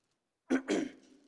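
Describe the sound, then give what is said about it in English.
Throat clearing by a man preaching a sermon: two short, harsh bursts in quick succession, the second trailing into a brief rasp, heard alone with no talk. “I apologize for clearing my throat so much.”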